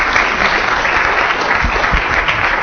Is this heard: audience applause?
yes